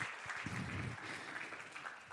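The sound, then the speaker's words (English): Faint, steady applause comes from an audience honouring a pastor, a continuous patter of many hands clapping without pauses. “If you clap for him, just trust me.”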